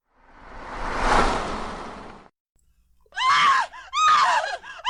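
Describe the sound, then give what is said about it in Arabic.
A woman screams outside in a horror-story scene: two sharp, high, wavering cries ring out after a long swell of hissing noise that rises and then falls away into a brief silence. “كنت في الحمام عندما سمعت الصرخة الأنثوية بالخارج. لم تكن صرخة سلمة، لكني على الأقل أعرف أنها صرخة أنثى”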